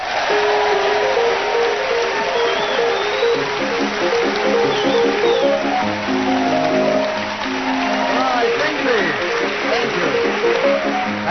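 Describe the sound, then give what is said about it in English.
Chopin's Minute Waltz plays as theme music, a quick, lilting waltz melody with rapid running notes that stays steady in loudness with only a brief dip. “as the minute waltz fades away”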